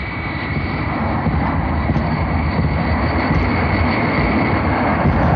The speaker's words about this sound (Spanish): El avión avanza lentamente para tomar su sitio en el principio de la pista de despegue.